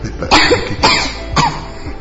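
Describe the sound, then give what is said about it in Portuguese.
A young girl coughs at night: three loud, harsh coughs spaced roughly half a second apart, each a sharp burst with a rough, breathy tail. “Papai, eu tô com tosse.”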